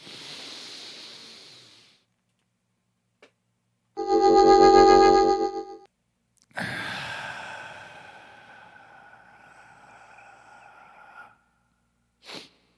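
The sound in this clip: A big, deep breath in and a long breath out, both breathy and rushing, with a pause and other sounds between them.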